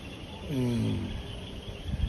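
Frogs calling at night: one drawn-out harmonic croak that dips slightly in pitch, set against a faint, hissy background.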